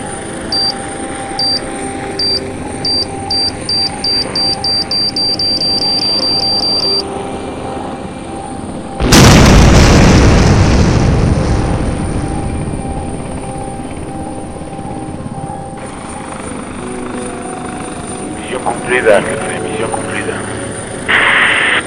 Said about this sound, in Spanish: Arrojar bomba. Arrojar bomba.